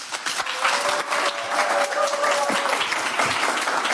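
Audience clapping at a live evening show, a dense, continuous patter of many hands that stays steady and moderately loud throughout, with no talk.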